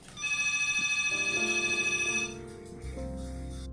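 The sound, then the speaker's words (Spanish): An incoming telephone call rings out with a bright electronic ring and rapid warbling pulses. It lasts about two seconds, then stops. “Hubo una interrupción ahí horrible de una llamada que no debió salir”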